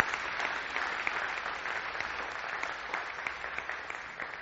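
A church audience applauding, dense continuous clapping at moderate level that eases off slightly toward the end.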